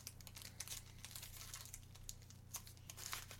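A chocolate bar wrapper, a white chocolate bar with coffee bits, crinkles and tears as it is pulled open: many quick, faint crackles and rustles, with a low hum running steadily underneath.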